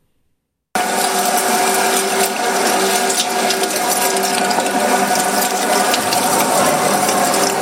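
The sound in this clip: A butcher's meat grinder mincing sacrificial meat during the Eid al-Adha holiday: a loud, steady mechanical whir with a low motor hum and a rattling, gear-like churn that starts abruptly and runs continuously, with no voices.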